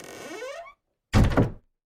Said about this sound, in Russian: Хлопнула дверь.